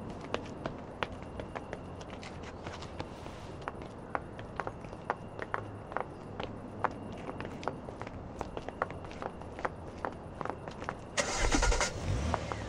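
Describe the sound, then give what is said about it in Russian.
Footsteps and car noise as a car sets off with an escort car following behind; many sharp, irregular steps and clicks over a steady low engine rumble, ending in a louder surge of engine noise. “в окружении мужа и охраны садится в автомобиль. За ними следует автомобиль охраны.”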